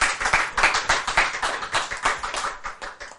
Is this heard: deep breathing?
no